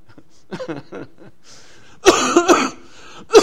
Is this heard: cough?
yes